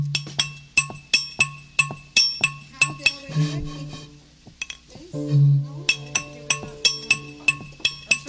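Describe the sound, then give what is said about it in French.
Bright, glassy clinks from a soda bottle tapped as percussion in a studio, many sharp taps in a steady rhythm alongside a held low tone, with a short break in the taps midway. “Les percussions, il est fait là en tapant sur une bouteille de soda qu'il a apportée dans le studio.”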